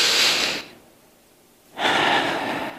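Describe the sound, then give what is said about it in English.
Deep breathing in two long, airy breaths, each lasting most of a second or more and separated by a quiet pause; steady and fairly loud, with no talking. “just breathe with me. Come on, just breathe like this.”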